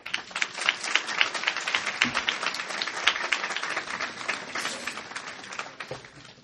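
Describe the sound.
Audience applause welcoming a speaker at a public meeting: dense, steady clapping from many hands that holds throughout and eases slightly near the end.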